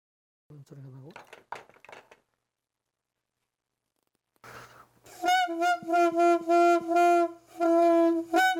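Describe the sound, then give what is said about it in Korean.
Piri, a Korean double-reed pipe, blown with a newly made six-hole body: a brief voice comes first, then a run of reedy, nasal, buzzing notes in short separate blows at a fairly steady pitch, loud and bright. “새로 만든 관대에 피리의 설을 끼워 불어봤지만 아직 뭔가 어색합니다.”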